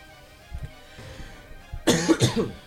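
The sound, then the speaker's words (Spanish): A few harsh coughs burst out together near the end, loud and rough, after a quiet stretch with only faint low rustling. “me vino ahora todo el tema de la tos”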